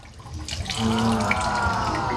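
Water is poured into a fermenting mix that contains coconut. The steady splashing gush swells in the first second and then runs on evenly and fairly loud.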